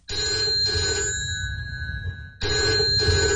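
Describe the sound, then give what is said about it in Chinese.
A telephone bell rings in a repeating pattern: two short bursts, a pause, then the ringing starts again and runs to the end, steady in pitch and fairly loud, with no voices. “这一天上午，蒋经国从浙江溪口给贾一斌打来了电话，语气十分生硬。”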